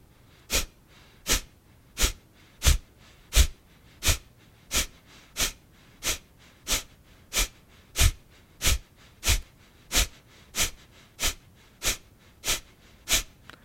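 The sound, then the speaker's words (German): Forceful, rapid Kapalabhati yoga exhalations: about twenty sharp, breathy nasal bursts at a steady, even rhythm, each short and equally strong, with no talking in between. “Du kannst es gleich nochmal ausprobieren, dieses Kapalabhati.”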